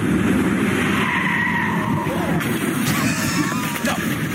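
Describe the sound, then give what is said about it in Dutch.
Tyres squeal as a Citroën Ami car skids through the Grand Hotel hairpin on the Monaco Grand Prix circuit, a loud, continuous rushing roar with thin squealing tones under voices. “Een Ami die op het Grand Prix circuit van Monaco rijdt. Op status quo. Ja, een haarspeldbocht neemt.”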